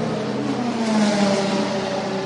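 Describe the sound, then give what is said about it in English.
The number 45 endurance race car's engine roars as it leaves pit lane after a four-tire change on Michelin tires. A sustained, loud, buzzing engine note carries through about two seconds without voices. “as soon as the four tires, the Michelin tires, are changed, off and away. And the latest trip down to pit lane was for that Dex Imaging Wayne Taylor Racing number 45, as off and away, Trent Hindman takes the car.”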